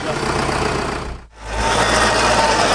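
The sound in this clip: A heavy vehicle engine works on clearing abandoned farmland, running with a loud, steady low rumble. The sound dips briefly in the middle, then returns to a full, even drone.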